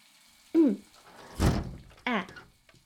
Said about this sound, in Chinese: 我就是怕你在里面太闷了，给你打开窗户透透气嘛